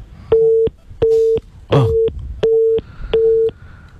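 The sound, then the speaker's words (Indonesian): Busy tone sounds after a phone call is cut off: five steady mid-pitched beeps in an even on-off rhythm, one of them briefly overlaid by a rough noisy burst. “Ya, nampaknya kami terputus dengan Pak Setio. Kami akan coba menghubungi kembali.”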